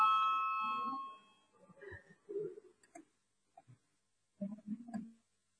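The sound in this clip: An electric voting bell rings in the Latvian parliament chamber. It sounds as a bright harmonic tone that fades over about a second and a half, then scattered low voices and murmurs follow.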